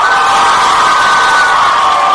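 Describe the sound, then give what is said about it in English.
A group of girls cheers after winning a quiz round, a loud, high-pitched shout from many voices sustained evenly across the whole stretch. “Girls won. Give me a cheer.”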